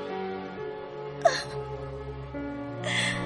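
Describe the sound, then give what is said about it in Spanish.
A woman sobs in a dramatic war-film scene from Operation Chromite (2016): a sharp gasp followed by a shaky whimpering cry, over sustained orchestral music. “La señora Nam llora.”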